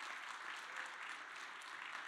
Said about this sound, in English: Give them a round of applause, guys.